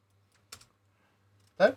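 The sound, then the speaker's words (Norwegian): A computer key is pressed to check that a recording is still running, giving a single short click, then a brief murmured voice sound against near silence. “Hvis jeg trykker her nå, så skal jeg se om opptaket fortsatt går.”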